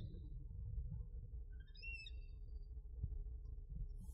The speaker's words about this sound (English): That's an eagle. Just talk over. That's an eagle. Wow. There? Yeah. It's a bald eagle.